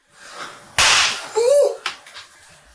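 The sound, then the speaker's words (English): Party poppers fired at close range into a person's face. A sharp, loud hissing burst is followed by a smaller second pop, over quiet background noise. “They're just like standing over him, wordlessly shooting party poppers in his face.”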